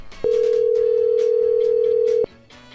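A steady telephone tone sounds while someone dials on the phone. The single unbroken tone holds for about two seconds over a faint busy background, then cuts off abruptly.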